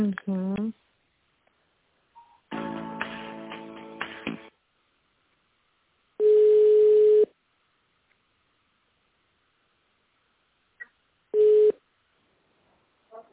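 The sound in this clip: Steady telephone line tone while a call is transferred, heard as two loud beeps, a longer one and then a shorter one, after an earlier stretch of busier sound.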